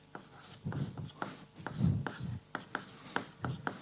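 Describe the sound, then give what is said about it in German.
Pen strokes of a diagram being drawn by hand during a file system explanation: a series of quiet, scratchy strokes in an irregular rhythm, some longer and some short and sharp. “Ich zeichne es mal an.”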